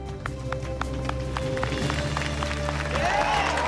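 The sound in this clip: Students clapping along in the bleachers, a steady run of rhythmic claps at an even pace over a sustained, humming tonal background.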